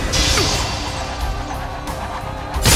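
Sword skill attack effect: a sustained, noisy rush of swishing and crashing that ends in a brighter, sharper burst.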